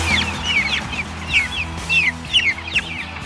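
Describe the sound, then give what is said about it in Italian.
Chicks peep in a steady stream of many short, high, downward-sliding calls, some overlapping, above a low, rumbling background. “Questi sono i pulcini di Mondonico?”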